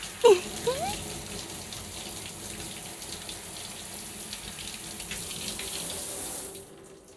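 Water running from a tap while hair is rinsed makes a steady splashing rush with a few brief knocks near the start, then drops away just before the end.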